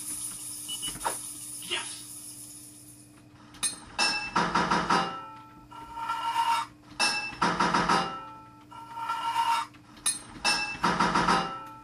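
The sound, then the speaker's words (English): Hammer blows on a pipe in a video game ring out as bright metallic clanks in a few separate bursts of quick repeated strikes, with short clinks and quieter gaps between them. “4 hits of your hammer to fit a pipe.”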